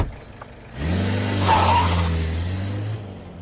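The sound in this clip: A car pulls away. After a second of quiet, a low engine hum starts and continues steadily to the end with a soft hiss of tyre or road noise.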